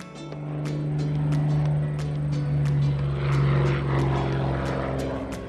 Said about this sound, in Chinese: The airplane is so high! 那架飞机飞得好高哦。 I wonder where it's going.